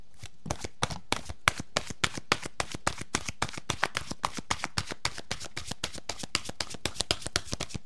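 Oracle cards being shuffled: a fast, evenly paced run of many crisp riffling snaps that goes on without pause and with no voices.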